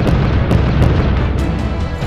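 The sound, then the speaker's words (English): Weapons fire at an aircraft over a factory, producing a dense, loud, rumbling barrage of booms. A few sharper bursts stand out from the continuous roar. “Activating defensive measures. Weapons energized and trained on the target. Firing.”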